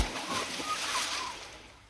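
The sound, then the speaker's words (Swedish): A secret agent character dives into the water with a splash: a broad, washing splash that fades out over about two seconds. “Hemliga boll dyker nu ner för att spana. Plums i böljan!”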